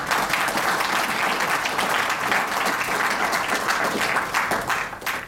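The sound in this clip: Audience applause welcoming a speaker for an evening college lecture, dense and steady with many hands clapping at an even level, thinning slightly at the very end.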